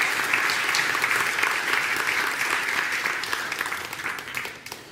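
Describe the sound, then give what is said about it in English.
Congregation applause at a church service welcoming a new member, a full, steady round of clapping that eases slightly toward the end. “A round of applause for Ade.”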